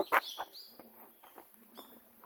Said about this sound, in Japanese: なんか鳥の声聞こえるで。